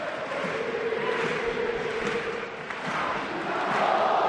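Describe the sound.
Football fans at Mestalla stadium sing the Valencian regional anthem a cappella, a massed chorus of voices holding sustained notes over a broad crowd roar that swells louder near the end.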